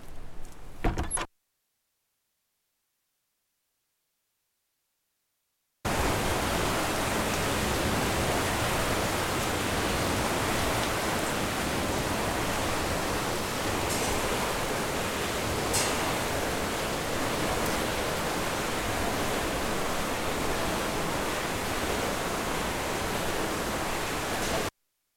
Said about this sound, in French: Du moulin. C'était pas le meilleur son, désolé. Mais il était sympa quand même. Il est sympa, c'est l'eau qui passe sous la roue